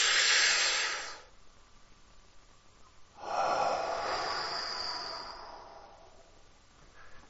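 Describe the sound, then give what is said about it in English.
Long, slow, deep breaths drawn to imitate smoking a cigarette, airy and hissing. One breath, a pause, then a second longer breath that gradually fades, all faint and without words. “Get your cigarette in your mouth, light it up, and”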